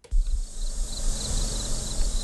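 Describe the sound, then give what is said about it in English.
Cicadas and crickets buzzing from all directions on a farm in Jefferson County, West Virginia, in summer during a drought: a continuous, dense, high-pitched droning chorus over a faint low rumble, with no talk. “On the beaten paths of Tabler Farm, cicadas and crickets buzz from all directions. It's a hallmark of summer on the Jefferson County property.”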